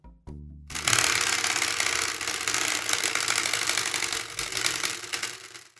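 A prize wheel is spun, giving a loud, dense run of rapid mechanical clicking that continues steadily for about five seconds after a brief lead-in.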